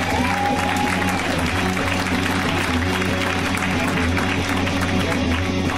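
A comedy show audience applauding a comedian, a loud, continuous roar of clapping from the crowd that stays at a steady level throughout.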